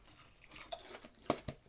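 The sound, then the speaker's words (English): Crunching of scorching cheddar cheese crackers, heard as a few crisp, sharp crunches that stand out over a faint rustling background. “This is the scorching cheddar. Oh, yeah, perfect. I was like, scorching cheese it. It tastes like the Ritz Bits.”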